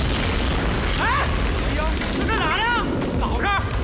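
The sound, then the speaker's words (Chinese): Blasting explosion at a work site by a mountain spring, heard as a loud, unbroken roaring rumble that fills the whole stretch, with a few wavering high tones riding over it. “这什么回事啊？谁炸的呀？别把我泉水炸坏了啊！谁放炮？”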